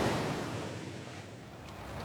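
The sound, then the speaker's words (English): Waves wash around a harbour as a boat approaches. A soft, continuous rush of surf and wind-like noise stays low and fairly steady throughout, with no voices. “The harbour. We're approaching the harbour.”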